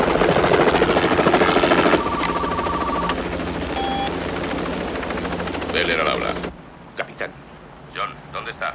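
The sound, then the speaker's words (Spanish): Helicopter rotor and engine roar heard from inside a helicopter during a police pursuit, a loud, dense, steady drone lasting about six seconds with a few brief electronic beeps partway through. It then drops off sharply to a quieter background with scattered clicks. “En el helicóptero.”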